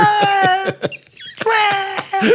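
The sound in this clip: A human voice imitating whale song with long, sustained moaning tones, a wavering pitch glide in the middle, and a few short clicking sounds interspersed.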